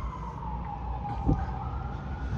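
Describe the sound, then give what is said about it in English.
Ambulance siren passing along a street on the way to a bicycle accident: a steady, faint wailing tone that holds through the whole clip over low street rumble. “Oh, there's the ambulance. Yeah, they're probably going to that car. They're probably going to that bicycle accident.”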